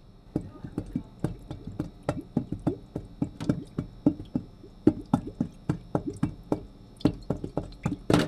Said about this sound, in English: This is the sound of a cup being lowered into the water upside down. Use two of them.